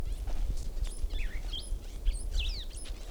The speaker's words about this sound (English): Another bird in the background.